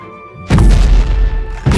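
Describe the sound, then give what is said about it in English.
Heavy booming blows smash apart the massive gates of a giant enclosure: two loud, deep, crashing impacts over a second apart, the first followed by a sustained low rumble before the second strikes. “Boom! Boom! Boom! Boom! Smash! The massive gates split apart.”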